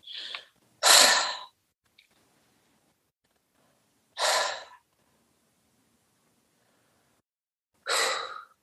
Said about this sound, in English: All I want you to do is I want you to take three cleansing breaths, however way you want. I'll do mine.